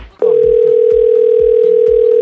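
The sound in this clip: Steady telephone dial tone heard while placing a prank call to a bakery, a loud, even mid-pitched hum held for about two seconds, with faint rhythmic sounds beneath it.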